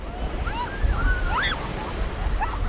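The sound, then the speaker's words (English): Surf washes steadily onto a breezy public beach in Gulf Shores, Alabama, where kids play in the water, with a continuous rumble of waves and wind noise and a few faint high tonal calls over it. “There's no sign of oil on the breezy public beach in Gulf Shores, Alabama, where kids are playing in the surf.”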